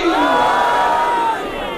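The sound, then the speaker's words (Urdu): A crowd roars a loud unison response to the Naara-e-Haidari chant call during a religious speech. The shout swells into one sustained, full-throated burst that holds steady and eases off slightly at the end. “نعرہ حیدری”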